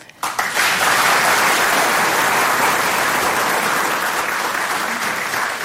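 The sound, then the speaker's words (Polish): Loud applause from a studio audience, starting abruptly after a brief quiet moment and then holding dense and steady for several seconds. “Proszę o brawa.”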